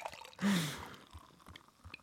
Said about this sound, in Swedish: Gumman, det är bara att korka upp. Varsågod.